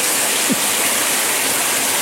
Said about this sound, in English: Just grab the tap there. That one. My mistake. Yeah, and not too much hot water, please.